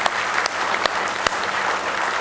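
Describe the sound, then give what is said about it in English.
A church audience claps their hands in praise, a dense, steady patter of many hands that stays loud and even throughout, with a few sharper individual claps standing out. “Give the Lord one more hand clap of praise.”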